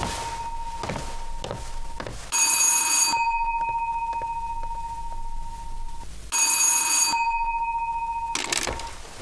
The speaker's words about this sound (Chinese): 对不起，我接个电话。